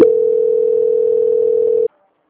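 A telephone line tone plays during a call transfer: a single unbroken, mid-pitched steady tone lasting about two seconds, then cutting off abruptly into silence.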